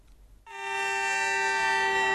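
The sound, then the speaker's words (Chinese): A train whistle sounds at Suifenhe railway station as a freight train from Russia, loaded with timber boards, departs. After a brief quiet moment the clear, steady tone starts abruptly and holds loud to the end. “这里是绥芬河火车站，随着一声清脆的汽笛鸣响，这列从俄罗斯驶来的75044次列车满载着板材向四川成都驶去。”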